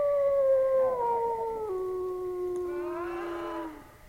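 Dogs howling: one long, loud, sustained howl whose pitch slowly sinks, with a second wavering tone joining near the end before the sound fades out.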